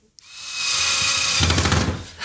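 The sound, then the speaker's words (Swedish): A power screwdriver or drill whirs steadily as screws are driven to assemble a World Cup sign near a shower floor. A high sustained whine later shifts into a lower, pulsing churn, with no talking. “Jag hoppas inte jag skruvar rakt ner i duschgolvet nu.”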